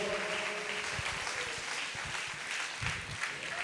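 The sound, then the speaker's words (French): A concert audience breaks into applause, a dense and steady wash of many hands clapping. The clapping is unbroken and moderately loud, with no speech over it. “On vous demande de faire déjà un maximum de bruit pour Kino, qui va venir mettre les instrus, qui est le concepteur musical de toutes les instrus que vous allez entendre à partir de maintenant.”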